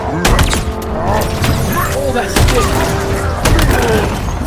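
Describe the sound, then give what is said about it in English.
Shotgun blasts in the video game Halo Infinite: several sharp, booming shots at irregular intervals under excited, overlapping talk and game noise. “It's the shotgun on the mega block! Oh, it is! It is!”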